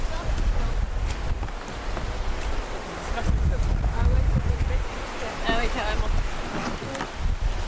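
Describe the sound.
Sea waves and wind while kayaking off the Breton coast: a continuous rush of surf and gusty buffeting that swells and eases, with people talking over it.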